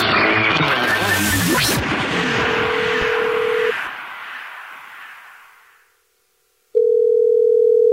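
Steady telephone dial tone heard while calling back a listener. A wash of noise fills the opening and fades away, with the tone running through it. After a short silence, the dial tone returns loud and constant.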